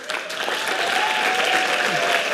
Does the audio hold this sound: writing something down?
no